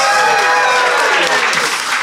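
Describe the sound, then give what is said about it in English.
Applause from a delighted quiz audience, a dense, steady wash of clapping that holds at an even loudness for about two seconds. “That is the sound of an audience delighted.”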